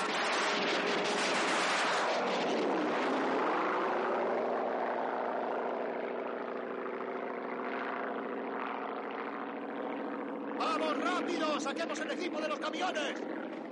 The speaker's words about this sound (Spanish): De pronto, sobre ellos aparece un avión que comienza a disparar al campamento. Todos buscan refugio como pueden.